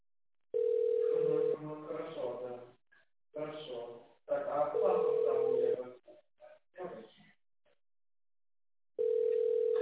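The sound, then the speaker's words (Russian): A steady telephone line tone sounds in three separate bursts while a call is transferred at a cleaning company, with voices talking over the narrow-sounding phone line between the tones. “Так, сейчас минуточку переключу вас.”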